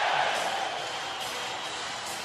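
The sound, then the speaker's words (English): Hockey crowd roaring in a standing ovation after Owen Nolan's playoff goal for the San Jose Sharks against the Colorado Avalanche, a steady, fairly soft wash of cheering noise with no distinct peaks. “And he drilled it. His first goal to the playoffs. The Sharks lead it 2-1. A standing ovation. The crowd is on its feet. for Owen Nolan.”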